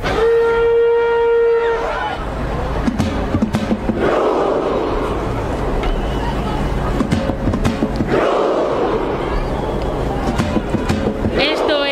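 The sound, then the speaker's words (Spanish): A large World Cup crowd performs the Viking Row chant. A sustained low horn-like note opens, then a loud, dense crowd roar follows, with many sharp rhythmic beats and massed voices shouting together. “El Viking Row, que ya se ha hecho viral en TikTok, que lo hacen los noruegos y los que no son noruegos.”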